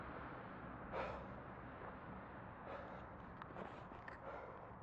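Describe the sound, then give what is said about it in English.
Soft breathing drifts over a faint, steady room ambience, with a few louder breaths or sighs rising briefly above the hush. “Breathing, also ambience, in case you're wondering.”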